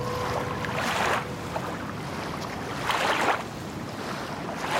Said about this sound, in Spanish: La oscuridad devoraba una pequeña embarcación pesquera. Las olas estrellaban contra los costados del bote y un leve viento soplaba hacia el sur.